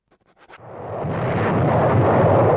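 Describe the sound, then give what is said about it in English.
Naval bombardment explosions on the Normandy coast at daybreak: a few faint thuds, then a loud, low, continuous roar of blasts that swells and holds steady. “The naval bombardment continues.”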